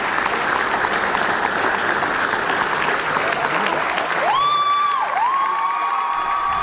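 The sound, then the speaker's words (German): A mostly young audience applauds and cheers at a musical theatre dress rehearsal, continuous and loud, with a shrill whistle rising and holding near the end. “Das überwiegend junge Publikum applaudierte bei der Generalprobe bereits während der Vorstellung.”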